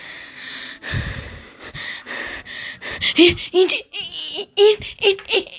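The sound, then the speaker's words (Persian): Breathing comes from behind, heavy and irregular, with sharp gasps and rasping, partly voiced breaths in quick succession, growing louder and more strained toward the end. “این چی بود؟ صدای نفس از پشت سرم میاد.”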